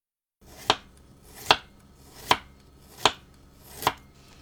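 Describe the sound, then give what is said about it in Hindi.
A knife chops peeled ginger lengthwise into thin strips on a board: five sharp, crisp strikes at an even, unhurried pace, each clear and alone with no talk. “अब अदरक को छीलकर लंबाई में बारीक टुकड़ों में काट लीजिए।”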